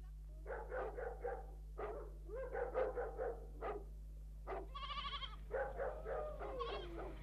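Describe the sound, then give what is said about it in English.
Sheep bleat repeatedly in short bursts of nasal calls, some with a trembling quaver, over a constant low hum. “He told me to bring the sheep over the side, and here they are.”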